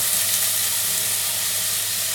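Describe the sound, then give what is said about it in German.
Sizzling as risotto rice is tipped into glassy onions in olive oil, a steady, loud, unbroken hiss that fills the whole moment with no talk over it. “jetzt sind die Zwiebeln glasig, jetzt hauen wir den Risotto-Reis in die glasigen Zwiebeln”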